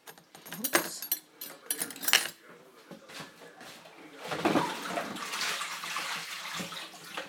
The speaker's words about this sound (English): I emptied the sink now. I've got a hole bit next to it which is full. Getting the water hot.